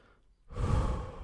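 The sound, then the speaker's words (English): A deep breath: after a brief quiet, a breathy inhalation swells in and holds steadily to the end, fairly soft and alone. “Deep breath.”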